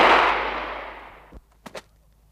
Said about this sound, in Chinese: 第二组出列，预备，射击。